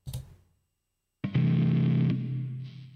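A noise gate shapes a sound during a music mixing session. A short hit decays and is cut off into silence, then a loud, distorted sustained tone starts abruptly and later stops sharply, leaving a softer tail.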